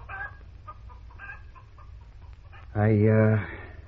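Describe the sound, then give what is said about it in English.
A Wyandotte hen gives one loud, drawn-out clucking squawk after a stretch of quieter talk. “Ain't that Wyandotte got the damnedest walk? Lifting her feet real careful, like she had elastics stretched between her legs.”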